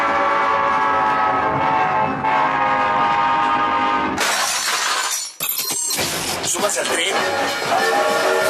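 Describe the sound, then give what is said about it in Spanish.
Train sound effect with a horn: a loud, sustained, harmonic horn blast fills the first half, then gives way to a harsh, clattering rail rumble with a brief dip near the middle. “Súbase al tren.”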